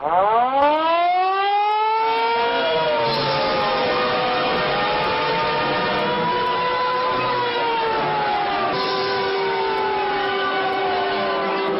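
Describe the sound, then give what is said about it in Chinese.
A civil defense siren sounds a top-level alert as a city faces flooding. Its loud wail sweeps upward at the start, then holds a sustained tone with slow wavering pitch, continuous and alone. “全城都要被淹没了，西门大桥也要全淹。 发特级警报。”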